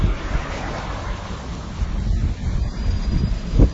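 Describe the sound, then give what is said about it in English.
Blustery wind buffets the microphone in a continuous rough roar, swelling and easing in gusts, with a stronger gust near the end. “You can probably hear the wind.”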